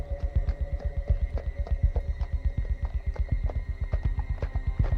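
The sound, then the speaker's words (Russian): Hooves of a ridden horse clop on a shore in a rapid, even rhythm of many strong, low thuds that continue throughout, with a faint hum underneath. “Чуть дальше на берегу останавливается всадник.”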